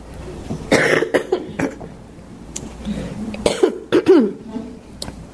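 A person with asthma coughs repeatedly in a series of loud, harsh bursts, with some throat clearing, the coughs growing denser toward the end.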